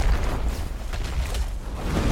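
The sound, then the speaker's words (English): The beast clergyman boss falls to the ground in a video game cutscene with a deep, rumbling crash: a loud, steady low roar mixed with whooshing noise that lasts about two seconds. “The beast clergyman falls to the ground.”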